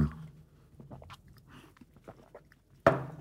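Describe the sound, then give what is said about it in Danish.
Soft chewing and biting while eating grilled chicken: faint, scattered moist clicks and crunches, then one sharper, louder bite near the end. “Jeg husker virkelig, jeg er lykkelig, når jeg spiser de her grillkyllinger.”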